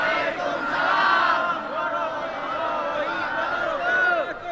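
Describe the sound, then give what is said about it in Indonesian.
A crowd of listeners answers the Islamic greeting together: a loud, blended swell of many overlapping voices that holds for several seconds with small rises and dips. “Dari bunyi sambutan salamnya nampaknya tak yakin kalau saya ini ustaz.”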